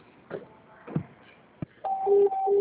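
A telephone being dialled: a few soft, scattered clicks, then a loud electronic signal of steady, interrupted tones that alternate between two pitches.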